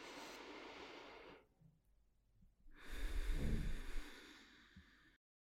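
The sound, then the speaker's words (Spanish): Slow breathing during a guided meditation: an airy hiss of breath, a quiet pause, then a fuller, louder breath with a soft low rush. The breathing is faint and heard alone. “Respira conmigo.”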